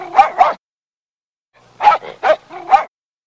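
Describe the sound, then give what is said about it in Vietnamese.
A dog barks: two sharp, clear barks, a short silence, then a further run of several barks in quick succession. “Sau khi sủa hai tiếng to và rõ, nó lại sủa ba tiếng nữa nhỏ hơn”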